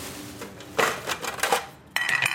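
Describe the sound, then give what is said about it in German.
Old metal pans collected from people's kitchens clatter together as an artist in Beirut's Ashrafieh builds a Christmas tree from them: a few irregular metallic clanks and rattles over a steady background hum. “So these are the pans by the people from their kitchens.”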